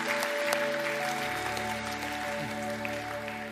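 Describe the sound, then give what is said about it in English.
A church audience applauds to welcome guests at a service, a faint spread of clapping carried over sustained musical tones that hold throughout. “Let's just put our hands together and welcome all of our guests to church today.”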